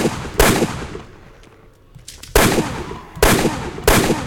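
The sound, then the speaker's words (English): Shotgun blasts from a video game as the player fires at zombies: four loud, sharp booms with short gaps, separated by quieter game ambience. “I switched to shotgun piece number two. Yeah, this is a shotgun.”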